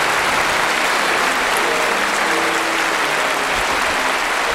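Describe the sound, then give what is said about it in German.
Loud, dense audience applause fills the space at a German-language stage show, a steady, unbroken wash of many hands clapping at once that holds its level throughout. “Herzlichen Dank, meine Damen und Herren. Herzlichen Dank für den wunderschönen Applaus.”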